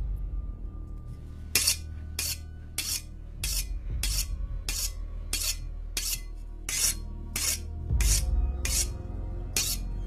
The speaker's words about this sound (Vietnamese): Bên tay kia là những cái móng tay sắc nhọn như những lưỡi kéo cứ cọ vào nhau soàn soạt soàn soạt. Một tay còn lại nó cầm một con dao, là một con dao bầu to miết vào nhau.